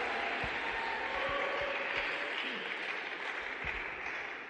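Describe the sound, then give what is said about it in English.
Steady applause rings out as a worship gathering welcomes a man forward to give his testimony. Dense, even clapping continues throughout at a moderate level. “Help me welcome Albert to give us his testimony. Put your hands together as we welcome Albert.”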